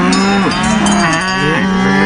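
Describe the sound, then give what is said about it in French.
Several cows moo loudly and continuously, their drawn-out lows overlapping and sliding up and down in pitch, with no talk. “Et les vaches de Mélinda sont prêtes à manifester si nécessaire.”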